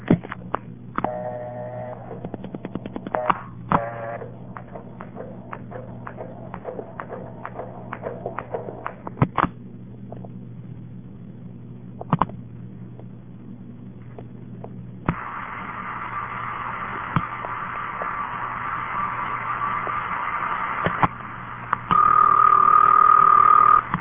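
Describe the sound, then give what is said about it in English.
A long-distance telephone call on a Bell System line with Western Electric equipment is dialed: many rapid clicks, then steady line hiss and a loud, unbroken tone near the end. “Dialed the wrong number there, because that number is always busy before. Anyway, I guess you heard how long this call goes through.”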